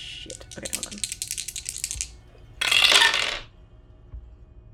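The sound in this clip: Dice rolled for a power check in a tabletop game: a rattling clatter of many small quick clicks for about two seconds, then a short louder burst before it falls quiet.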